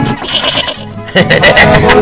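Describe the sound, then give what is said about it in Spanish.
A person imitates the bleating of a skinny lamb, a wavering nasal cry in two stretches split by a short pause, the second louder and fuller. “Hágale el cordero flaco”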